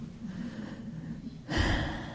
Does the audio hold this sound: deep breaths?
yes

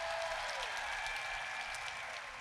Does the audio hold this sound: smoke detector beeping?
no

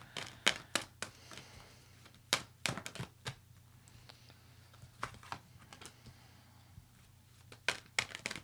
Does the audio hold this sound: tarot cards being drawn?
yes

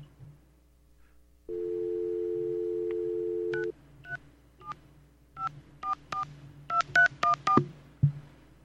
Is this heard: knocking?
no

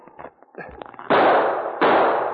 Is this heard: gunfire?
yes

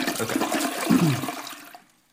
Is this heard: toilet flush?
yes

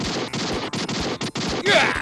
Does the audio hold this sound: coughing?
no

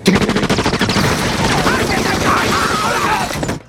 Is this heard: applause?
no

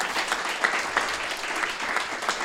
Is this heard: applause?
yes

